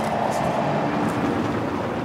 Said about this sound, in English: A few cars still going by